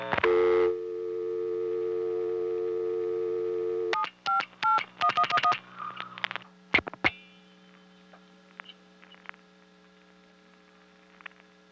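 A touch-tone telephone line dialing a number: a steady dial tone holds for several seconds, then a rapid run of short DTMF beeps follows. Scattered faint clicks and a low mains hum come after the dialing.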